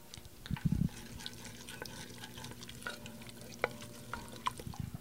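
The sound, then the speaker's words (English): Gentle sizzle of chopped garlic slowly cooking in extra virgin olive oil in an enamel-lined Dutch oven on low heat: faint, steady crackling with a few brief louder spurts near the start and scattered soft ticks. “This is an enamel-lined Dutch oven, and we have it on a low heat, but not the lowest. And we're just very slowly cooking the garlic with the olive oil.”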